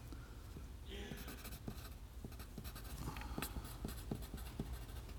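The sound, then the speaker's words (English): Writing on a board during a church evening gathering: faint, uneven scratchy strokes and small taps over a steady background hiss. “I think I need to write softer, but it's just not in me.”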